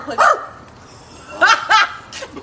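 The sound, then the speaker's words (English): A person imitates a barking dog with a few loud, voiced woofs in short bursts, separated by quiet gaps. “My bad. My bad. That was the inner. That was the inner dog. That was the inner pooch. My bad.”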